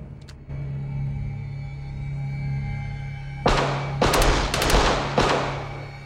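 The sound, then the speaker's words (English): Gunshots in a film scene as an armed couple shoots people beside a truck: several sharp, loud bursts in quick succession over a steady low rumble. “Charlie watches an armed couple approach the truck. He looks shocked as the couple shoot the people by the truck.”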